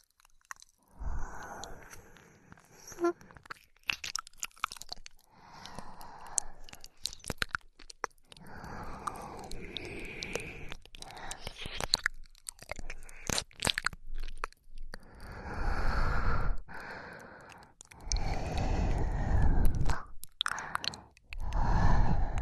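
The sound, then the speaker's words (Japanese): Wet licking and mouth sounds from ASMR ear licking on the left ear: irregular clusters of soft smacks, squishes and crunchy slurps separated by brief pauses, with no talking. “耳舐めを続けさせていただきますね。今度は左のお耳をペロペロさせていただきます。”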